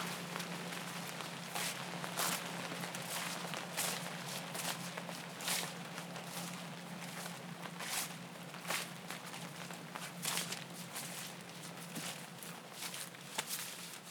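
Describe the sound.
A group walks outdoors beside a pipeline, their footsteps a faint, steady patter of many soft steps.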